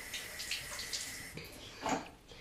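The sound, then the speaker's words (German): Water runs from a tap over a sink as a finger is rinsed under it: a soft, steady hiss that swells into a brief louder splash near the end. “Warte, vorher den Finger waschen. Wir wollen hygienisch sein.”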